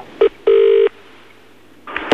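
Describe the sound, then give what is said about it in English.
Telephone tones while calling a pizza place: a short beep followed by a longer sustained tone, a quiet pause, then another brief burst of tones. “Okay, so they're on hold. Let's phone pizza place number 2.”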